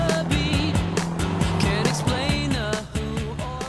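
Engine of a big, shiny sports car driving, a loud continuous roar whose pitch climbs and drops again and again as the revs change, with no pauses.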